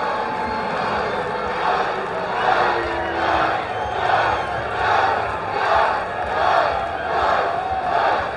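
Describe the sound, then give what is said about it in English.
Baseball crowd cheering after a towering home run to right field, a sustained roar that swells and ebbs in repeated rhythmic waves, with no voices over it. “There's the crowd.”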